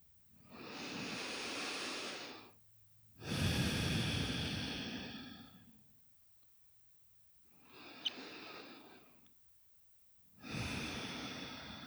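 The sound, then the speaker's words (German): Slow breathing during a guided meditation: four long, soft breaths in and out, alone, each rising and fading smoothly, with a quiet pause between them. “Mit der Ausatmung kehre zum Zentrumspunkt deines Herzens zurück. Atme weiter so.”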